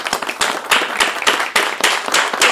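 Applause welcomes a DJ guest: steady, loud clapping with a regular pulse running through the whole stretch.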